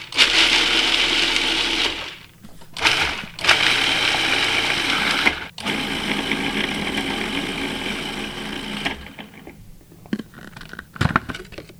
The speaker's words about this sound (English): And then we're going to pulse that until it's finely chopped. So we've got the garlic, pine nuts, and salt in the food processor.